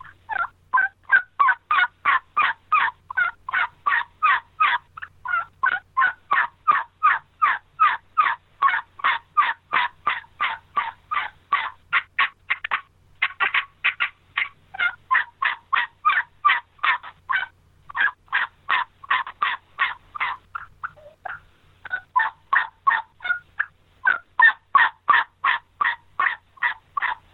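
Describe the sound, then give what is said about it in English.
Turkey turnover yelps played on a red latex combo cut turkey call: a long, loud run of many rapid, evenly spaced yelp notes, broken by a few brief pauses. “what we call turnover Yelp, and that's a Yelp that's got that pretty front end, turnover in the middle, and a pretty back end to it.”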